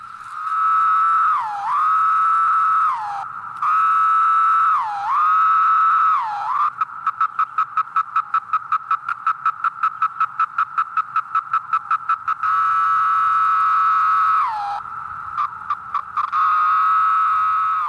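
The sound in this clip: Chorus of periodical cicadas newly emerged after 17 years: a loud, steady, droning buzz broken by repeated falling slurs, then a long stretch of rapid, even pulses, before the continuous drone returns.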